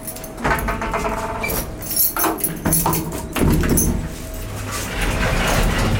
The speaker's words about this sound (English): Wie ihr ungefähr hören könnt, wir sind jetzt oben auf dem Gebäude im 14. Stockwerk